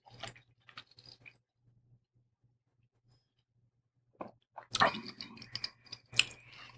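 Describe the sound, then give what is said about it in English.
Chewing on a smoky chicken wing that has sat out a few minutes and turned chewier: faint, moist mouth sounds come in sparse bursts, go quiet, then return as a denser run of chews. “It's been up here for a few minutes, so it's a little chewier now. Let's see. Good wing.”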